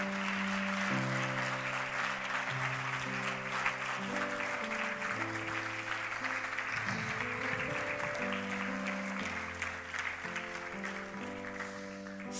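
An audience applauds a couple celebrating their 60th wedding anniversary, with dense, sustained clapping that holds steady over background music.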